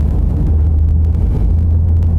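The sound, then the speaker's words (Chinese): Steady low rumble of a car being driven, a continuous deep engine and road drone that holds even throughout, with no voices. “开车先把我送到吴老师那儿。”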